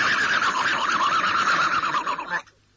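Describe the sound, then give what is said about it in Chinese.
A horse that has been galloping hard gives a loud, wavering whinny that holds for about two seconds and then cuts off sharply. “突然，大城外跑了一匹马，这匹马像风驰电掣相仿。”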